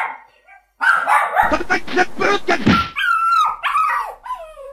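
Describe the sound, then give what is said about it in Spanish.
Dogs barking outside: a run of repeated barks and yips comes in quick bursts, loud and harsh, with a whining, high-pitched vocal tone around them and voices mixed in. “Están afuera. Todos los chocos ladrando, él tiene que ladrar.”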